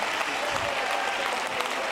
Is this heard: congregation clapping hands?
yes